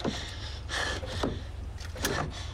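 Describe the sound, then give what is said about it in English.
A car door closes as a passenger climbs into the car. A few soft, muffled thumps and rustles end in a sharper knock, all fairly quiet. “Mike opens the car door for her, and she climbs in.”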